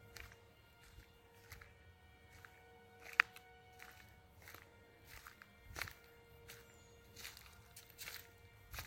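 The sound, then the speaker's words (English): Footsteps of someone walking inside in the Drakensberg, many soft, faint steps at an uneven pace with light scuffs between them and one sharper click partway through. “I'm in. And I'm walking inside here.”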